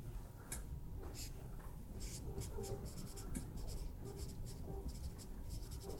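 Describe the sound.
Writing by hand. Faint, quick scratching strokes come in short irregular bursts, with brief pauses between groups of marks.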